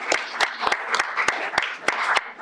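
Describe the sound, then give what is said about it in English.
Warm round of applause from an audience at a community yard-of-the-month award presentation: dense, steady clapping with sharp individual claps standing out throughout. “why don't we give a warm round of applause for”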